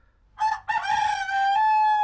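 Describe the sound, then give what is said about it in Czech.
A rooster crows loud and alone, starting with a short opening note and a brief break, then a long, strongly harmonic call held at a steady pitch to the end. “Hele, takovej kohoutek by jim přišel k chuti.”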